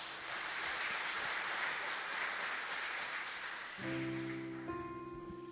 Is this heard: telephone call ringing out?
no